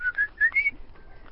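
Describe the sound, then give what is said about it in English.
A tiny, delicate black-and-white bird with a thin beak calls in a few thin, high whistled notes, then trails off into a fainter, drawn-out tone. “It's like a tiny little delicate bird with a thin beak in black and white.”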